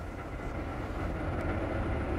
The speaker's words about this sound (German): Es ist wie wenn man auf Sand geht, wie Sie merken. Der Zug gleitet dahin.